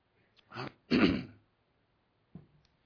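A man clears his throat: two rough, forceful bursts in quick succession, then a brief, fainter one after a pause, with no talking.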